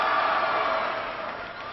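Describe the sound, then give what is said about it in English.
Crowd cheering for members of an Air Force intelligence, surveillance and reconnaissance wing. A broad, steady roar of many voices gradually fades toward the end. “They can cheer, but they can't talk about what they do.”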